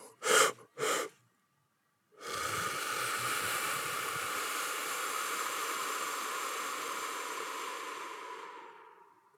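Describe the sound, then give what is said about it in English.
Three-part breathing: a few short, sharp inhales, then a pause and a long, steady, hissing exhale through pursed lips that lasts about seven seconds and fades at the end, with no talk. “three-part breathing, where you breathe in three inhales and really expand your chest wall. And then breathe out through pursed lips.”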